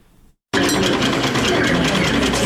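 Sewing machine whirring in a women's tailoring training workshop: a faint murmur, a brief silence, then a loud, steady, rattling run that continues to the end.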